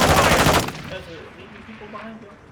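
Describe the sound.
A rapid burst of automatic gunfire from a video game fires loud and crackling for about half a second, then cuts off and leaves a fading tail with faint lingering tones.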